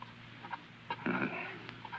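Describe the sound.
A husky dog in a radio drama makes faint sounds, a few short, soft whines with a slightly fuller cry near the middle, over a quiet low hum.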